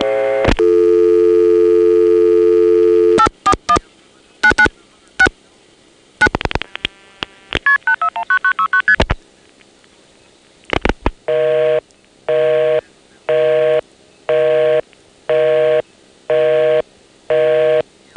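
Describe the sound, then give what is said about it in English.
Multi-frequency signalling tones on a call through an ESS telephone exchange and T-carrier trunk: a long steady tone, clicks, and a rapid string of short pitched tone bursts. Then seven regular on-off pulses of a repeating call tone. “Now the Arlington 841 ESS exchange. The Occoquan MFs are quite loud, but the Arlington tandem, more typically for a T-carrier trunk, doesn't let us hear.”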